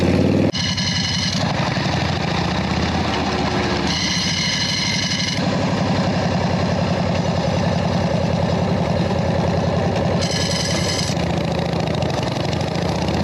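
A motorcycle engine idles in neutral, holding a steady, even low rumble from start to finish with no voices.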